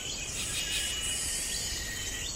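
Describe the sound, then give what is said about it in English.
Insects call through a hot jungle afternoon in a dense, continuous, high-pitched buzzing chorus that stays steady throughout, with no voices. “Insects work in harmony, timing their calls to fall between the notes of others.”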